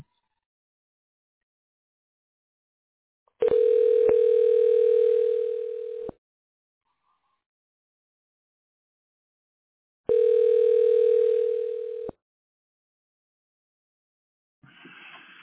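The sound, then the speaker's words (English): Ringback tone of an outgoing telephone call to an architecture office: two long, steady, moderately loud electronic tones separated by a silent pause, followed by a brief, fainter sound at the very end. “We're calling Lunardi Architecture.”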